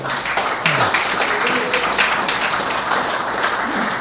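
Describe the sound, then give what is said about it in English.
Audience clapping at an AA meeting, a thick, continuous patter of many hands at a fairly loud, even level across the whole stretch. “if you're clapping, clap for AA.”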